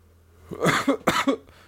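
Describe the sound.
Harsh coughing after smoking from a bong, two rough bursts in close succession with a throaty, rasping edge, standing alone against a quiet background.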